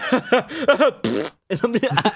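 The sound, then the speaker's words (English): A voice imitates a fart with one loud, raspy, buzzing burst of about a quarter second, set between short stretches of voiced, speech-like sounds. “Farts will never not be funny.”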